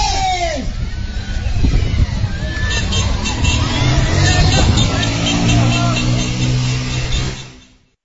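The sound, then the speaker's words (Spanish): Crowd hubbub at a race, with many voices shouting and chattering and a steady motor-like hum joining in partway through, before the sound fades out at the end. “vamos a escuchar el ambiente que se vivió en esta carrera”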